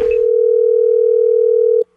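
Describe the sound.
A telephone dial tone heard while placing a call: a single loud, steady, unbroken tone that holds for almost two seconds and then cuts off abruptly.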